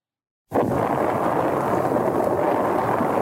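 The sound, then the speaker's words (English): Bomb-like explosion noise opens a 1967 album. It bursts in abruptly after silence and carries on as a dense, loud, sustained rumbling roar. “Ooh, I got some bomb sounds. Already darker than everything off the last album.”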